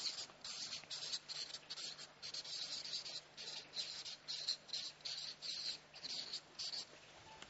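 A pen scratches on paper as someone writes the German word Gastfreundschaft, many quick, faint strokes in an uneven rhythm with short pauses between them.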